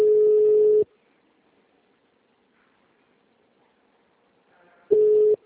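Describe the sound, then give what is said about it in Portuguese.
Telephone line tones play on a Portuguese-language service hotline while a call is transferred to an operator. A steady, mid-pitched tone sounds twice, in two loud bursts separated by a long stretch of near silence. “Estamos transferindo sua ligação para um de nossos operadores.”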